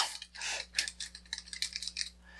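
Computer keyboard typing as a search is entered: many quick, uneven key clicks in irregular bursts, with a steady low hum underneath.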